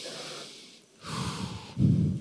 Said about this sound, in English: And I want you to just breathe deep.